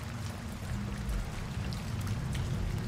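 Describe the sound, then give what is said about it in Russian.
Heavy rain beats on dusty window glass as a quiet, steady hiss with scattered faint taps over a low rumbling undertone. “Дождь все не утихал, с новыми силами колотя по пыльным стеклам”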